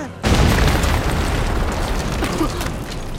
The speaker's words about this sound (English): They roll away and the bomb explodes.